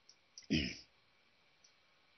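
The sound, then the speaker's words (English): Computer mouse clicks at a desk: a few faint, sharp ticks around one louder, fuller click-thump, then quiet. “I'm sorry. Clicking on the wrong space.”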